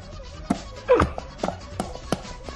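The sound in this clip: Garlic pounded to make rice: a few dull, knocking thumps at irregular intervals, moderately quiet, with one heavier blow near the start.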